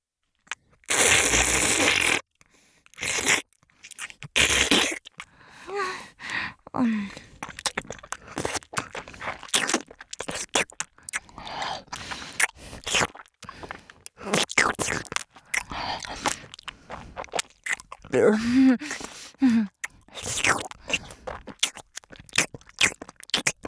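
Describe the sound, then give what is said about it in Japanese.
Crunching and chewing as something is crushed finely in the mouth before swallowing: many irregular crisp bursts separated by short gaps. A loud noisy burst comes at the start. “じゃあ、これ飲みますね。まずはお口の中で細かく砕いて。”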